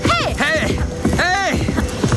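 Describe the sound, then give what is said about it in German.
Horse galloping on a short run past waterfalls up to a level stretch of road. Rapid hoofbeats run throughout under a rider's loud, repeated calls. “Und Jack, kannst du einen kurzen Galopp vertragen? An den Wasserfällen vorbei bis hinauf zum ebenen Straßenstück.”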